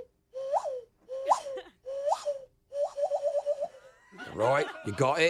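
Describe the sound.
A man vocally imitates a quail call: three short, swooping whistle-like calls evenly spaced, then a quick rippling trill of several pulses, after which he speaks.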